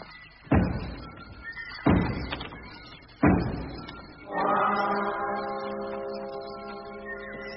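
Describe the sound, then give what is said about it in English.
Knocking on doors: three heavy, evenly spaced knocks, each a deep booming thud with a quick decay. A sustained, resonant humming tone follows, swelling and then slowly fading. “knock on the doors”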